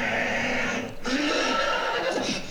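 A horse neighs in a loud, drawn-out whinny that wavers in pitch over a dense, noisy background.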